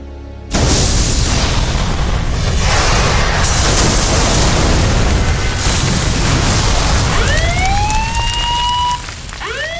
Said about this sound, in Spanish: La explosión ocurrida en la sala de máquinas a las 2 horas nos cogió completamente de sorpresa.